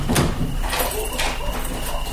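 A door is opened, marked by a few short clattering knocks and scrapes over a steady low background.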